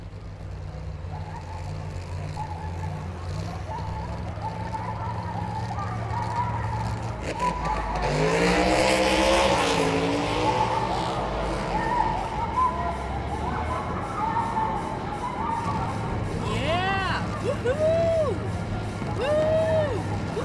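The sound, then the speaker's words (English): A Bugatti sports car drives with a low engine drone that surges into a revving roar in the middle. Higher whining tones follow near the end. “But seriously, you wanna go for a ride? Got the Bugatti tuned up?”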